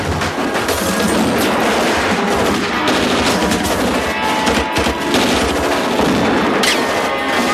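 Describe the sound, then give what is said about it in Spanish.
Thugs fire guns from a casino in loud, dense, continuous bursts of gunfire with rapid overlapping shots. The crackle and booms fill the whole stretch without a pause. “Los matones disparan desde el casino.”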